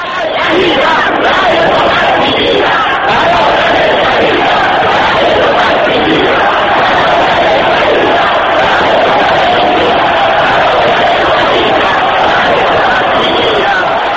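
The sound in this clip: Sustained roar of a large crowd chanting slogans at Friday prayers in Tehran during post-election unrest, many voices shouting together loudly and continuously with no quiet break.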